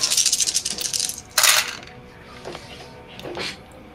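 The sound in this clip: Six dice rolled for a tabletop role-playing game check: a rapid rattling clatter for about a second, then a sharper burst of clicks and a few faint taps as they settle.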